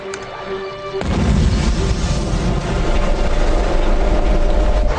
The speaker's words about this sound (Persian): کشتی منفجر شد. یعنی چی که کشتی منفجر شد؟